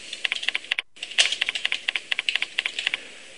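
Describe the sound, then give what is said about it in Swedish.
Someone types a name on a computer keyboard into a browser prompt dialog, producing rapid, irregular key clicks with one short pause near the start. “Då slänger upp en sån här dialogruta, en prompt och här kan jag fylla i mitt namn.”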